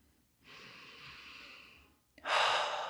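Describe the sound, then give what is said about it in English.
A person taking a deep breath: a soft, drawn-out inhale lasting over a second, then a short pause and a louder, breathy exhale. “Just take a deep breath.”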